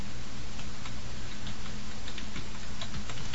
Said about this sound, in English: I have to remember that. I'm going to type that down there.